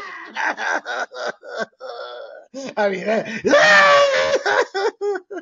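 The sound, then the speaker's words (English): A football player wails and cries in the stands after a loss to Washington. The voice sobs and moans in broken, uneven bursts, then swells into a louder, strained, drawn-out cry near the end. “After they lost to Washington, he ran up into the stands blubbering, wailing.”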